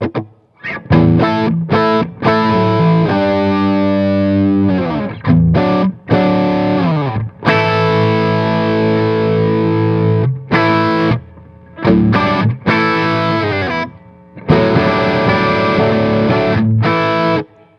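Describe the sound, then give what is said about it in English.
Distorted electric guitar riff played loud on a heavy-sounding guitar with moderate gain, chunky sustained chords and bent, vibrato-laden notes in repeated phrases broken by several brief pauses, with no voices. “It's funny because I've spent a lot of time with this guitar now. At first, I was scared of it. But this thing is a beast, man. Let's see what it sounds like.”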